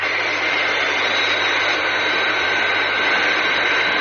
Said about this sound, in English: Its long, sleek body angles upwards as it climbs to supersonic altitude. That's certainly some aircraft.